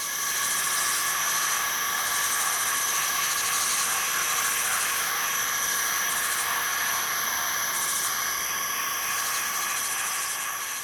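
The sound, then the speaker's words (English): Insects calling in a forest form a dense, continuous chorus of high, shimmering buzzes and trills, layered and unbroken, holding a steady, fairly loud level throughout. “That first one was a symphony of insects in a forest, doing their noisy best to create a cacophony of communication and contrasting calls.”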